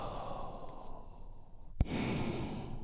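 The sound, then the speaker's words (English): A big, deep breath drawn in and released by a group together, heard as a soft, airy sigh with breathy rushing noise and a brief sharp click near the end. “And we do this by taking a big, deep, healing breath all together. Here we go. And release.”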